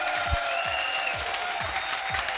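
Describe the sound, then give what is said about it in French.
Audience applause at a live event in Congo, a steady wash of clapping with five regular low thumps pulsing beneath it. “Applaudissez-les s'il vous plaît.”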